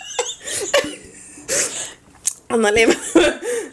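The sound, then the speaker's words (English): Choking, sputtering coughs from a person trying not to breathe into a microphone: several short, harsh bursts broken up by talking. “Bro, es que estaba tratando de no respirar en el micrófono y me salía ahogando.”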